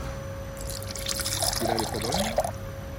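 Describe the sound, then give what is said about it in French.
Liquid clay slip poured into a plaster mould to cast a ceramic butter dish makes a soft, steady trickle and splash that swells slightly midway, over a constant low electrical hum. “Je vais remplir le barbotine. Donc la barbotine, c'est la pâte C'est la pâte liquide.”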